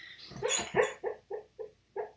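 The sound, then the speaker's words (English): A female dog whimpers and cries in her sleep with a series of short, soft yips and muffled woofs. They fall in a fairly steady rhythm, faint and with no talk. “Sorry, that's a dog crying in her sleep.”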